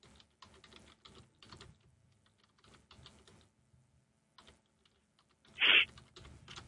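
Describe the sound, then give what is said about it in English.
A title is typed on a computer keyboard in quiet bursts of quick keystrokes separated by short pauses, with one louder clack near the end. “Let me see here if it does when I type it in. The title. See if it takes me to where I want to be.”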